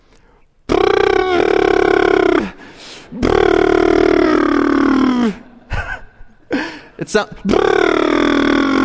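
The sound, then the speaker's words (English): Frustrated grunting from a one-year-old toddler: three long, strained, voiced grunts with shorter choppy ones between them, loud and with no other talk. “And he still finds ways to communicate that frustration. And right now, it sounds like this.”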